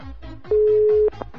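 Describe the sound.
A telephone line tone sounds while a number is dialed for a radio call-in: one steady beep lasting about half a second, set against a soft, rhythmic repeating background.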